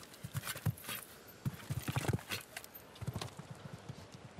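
Hoofbeats of a horse galloping during a show jumping round: many quick, moderately loud thuds in uneven clusters, with no talk over them.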